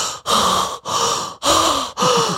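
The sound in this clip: A voice imitates the wheezy, asthmatic panting of someone hiding in a wardrobe: several loud, rasping gasps in a steady in-and-out rhythm, each breath separated by a brief pause.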